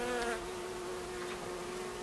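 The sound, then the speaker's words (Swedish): Honeybees buzz at an opened beehive during feeding with sugar paste, a steady, droning hum with a clear tonal whine that holds evenly throughout, loudest at the very start, with no voices. “Jag blåser ut de bin som är där och äter.”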